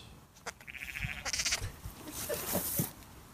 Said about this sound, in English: I'm Googling lamb sounds.